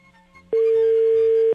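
Ringback tone of a phone call that goes unanswered: after a quiet start, one loud, steady single-pitch beep holds for about a second.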